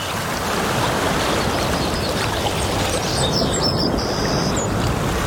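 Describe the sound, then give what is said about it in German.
Steady, dense rushing and splashing of water at a thermal spa in summer, loud and continuous throughout, with faint high bird chirps surfacing in the second half. “So klingt der Sommer in der Toskana-Therme Bad Sulza.”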